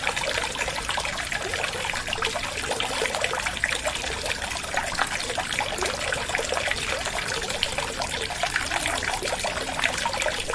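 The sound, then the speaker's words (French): The river Lot rushes steadily under the Pont Notre-Dame in Mende, a dense, continuous wash of flowing water with no breaks or voices. “Allez, nous voilà au-dessus du Lot, on est sur le pont Notre-Dame, l'un des plus célèbres monuments de la ville.”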